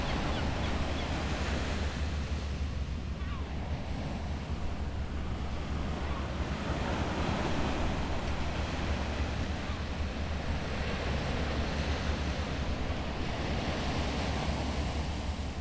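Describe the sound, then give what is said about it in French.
Ocean waves wash over a beach on the edge of a city, with the noise of the city and port far off; a steady, unbroken roar of surf sits over a constant low rumble throughout. “ça faisait longtemps que j'avais pas vu l'océan et les plages en périphérie de la ville. Il n'y a rien de mieux pour glandouiller malgré le bruit de la ville et du port au loin.”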